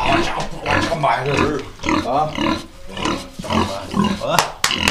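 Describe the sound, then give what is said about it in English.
Pig grunts and snorts from pregnant sows on a farm, coming in short irregular bursts mixed with people talking nearby. “They're both going to have piglets. And, see, they're nice. They don't bother you. They're just big.”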